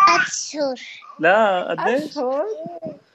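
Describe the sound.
A three-year-old girl babbles in a few bright, high-pitched voiced bursts with rising and falling inflections and brief pauses between them.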